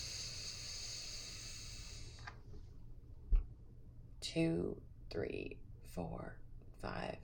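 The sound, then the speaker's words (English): A long, slow exhale pushed out with a hissing 'psh' sound in a breathing exercise, steady for about two seconds before it fades and a person starts talking. “I find that exhaling with a psh sound, like push with a psh sound, allows it to extend farther so that you don't lose your breath. So we'll practice that together.”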